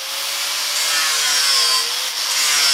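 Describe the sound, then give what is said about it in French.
An angle grinder fitted with a sanding disc is shaping wheel cutouts in a wooden board. It gives a continuous hissy, high-pitched abrasive grind with gentle swells in loudness and no pauses. “Les passages de roues, je les taille à la meule, en fait avec un disque à poncer.”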